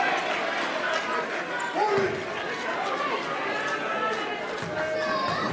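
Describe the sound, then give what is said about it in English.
Basketball dribbled on the court before a free throw in a college game involving Wisconsin: thudding bounces under crowd chatter, with a voice talking throughout. “Two dribbles, the set, the shot. Nothing but net.”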